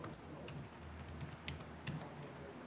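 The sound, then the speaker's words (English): Typing on a computer keyboard: soft, irregular keystrokes ticking faintly over a low, steady background hum. “So I'm just going to create a text file here. Oops, you actually have to be able to type.”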